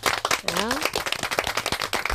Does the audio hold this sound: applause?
yes